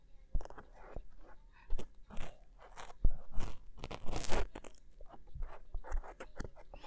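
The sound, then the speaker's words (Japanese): A cotton swab rubs inside an ear during ear cleaning, making close, fluffy crunching, scratching and rustling sounds in irregular bursts and strokes. The sounds are soft overall, with a few louder crackly peaks. “今日使うのは綿棒。綿棒はふわふわな、かき心地がすごく癒されるよね。じゃあ、入れていくよ。”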